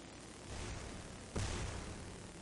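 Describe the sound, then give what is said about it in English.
Explosion blasts in a video game make a steady, noisy rumbling roar. Midway a single sudden boom bursts out, louder and fuller, then settles back into the rumble. “We're watching Zeke get pushed around by all the blasts.”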